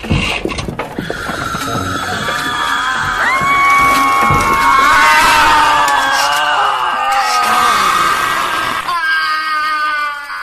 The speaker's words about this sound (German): Da, seht ihr all die Uhren? Ich will euch was verraten. Jede einzelne kann schreien. Passt auf, ich wette, sowas habt ihr noch nie gehört.